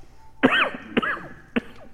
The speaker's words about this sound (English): I'm coughing up a lung.